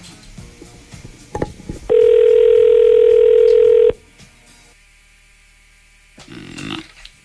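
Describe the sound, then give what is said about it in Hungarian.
A telephone ringing on a live call-in line: one loud, steady electronic tone held evenly for about two seconds, then cutting off into quiet, with a brief lower burst of sound near the end. “Most csörög a telefon, hallunk. Most leszünk adásban.”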